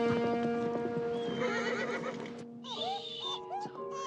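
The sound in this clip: Horses being ridden away, with clip-clopping hooves and several whinnies and neighs, some high and wavering, rising over a steady tonal background.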